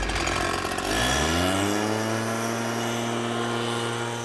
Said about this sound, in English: The leaf blower is definitely a mood killer. It just goes on and on and on. You have to hear this all day